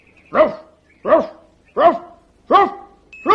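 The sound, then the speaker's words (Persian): A dog barks five times in an even, steady rhythm. Each bark is loud and tonal, separated by short pauses. “هی آلبرت، تو مثل سگ هوپر پارس نمی کنی. اون اینجوری پارس میکنه.”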